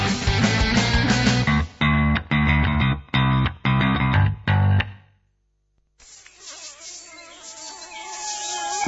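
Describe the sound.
Mosquito buzzing, rendered as a harsh, distorted drone chopped into a series of bursts, then a short silence and a thinner, wavering whine that carries on to the end.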